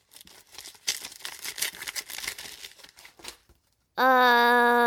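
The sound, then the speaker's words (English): An envelope is torn open with a few seconds of crinkling, ripping paper sounds in uneven bursts. After a brief pause, a loud sustained musical tone begins. “Right, let's open this envelope and see what they said.”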